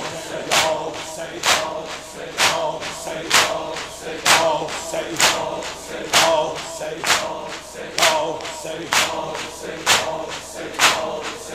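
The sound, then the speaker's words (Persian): Shia mourners beat their chests for Imam Hussein, making many regular thuds at a steady, even tempo. A crowd of voices continues underneath the beating. “با هدف این که برای سید الشهدا داری خودتو میزنی سینه بزن، لذت دنیا و آخرتو میبری.”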